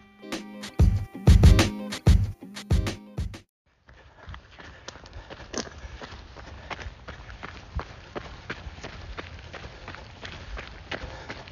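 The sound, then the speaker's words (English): Running footsteps from shoes on a forest trail during a 24-hour ultramarathon, 19 miles in: heavy, loud thudding strides at first, then after a short gap a steady run of softer, crunching steps. “What you're hearing? The sounds of my feet, my shoes on the trails here at Chapin Forest, running a 24-hour ultramarathon.”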